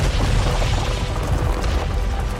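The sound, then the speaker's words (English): A deep explosion as a severed fist holding a dark crystal blows up, a loud, sustained low rumble that holds steady throughout with no voices. “A nearby knight chops the man's hand off, and as the fist drops to the ground, it explodes.”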